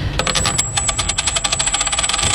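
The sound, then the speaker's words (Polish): A coin tossed during a game show clatters and spins on a hard surface, a bright metallic ring over many rapid rattling clicks. “To rzut monetą.”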